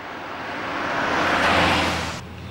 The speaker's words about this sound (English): happily the three of them get into the car and drive off down the dusty highway.